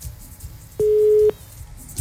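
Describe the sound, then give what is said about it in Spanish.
A telephone busy tone after a call is cut off: one steady, mid-pitched beep lasting about half a second, loud over a faint background hum. “Se cortó la comunicación.”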